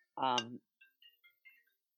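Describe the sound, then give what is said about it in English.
A mobile phone rings with a faint melodic ringtone, several short high electronic notes following a brief spoken sound. “And sorry, my phone just rang.”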